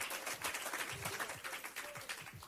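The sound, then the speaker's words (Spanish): Church audience clapping during worship, faint and uneven, with many overlapping hand claps that pulse irregularly over a soft background wash. “Y si ese aplauso es para Él, déselo con todo el corazón.”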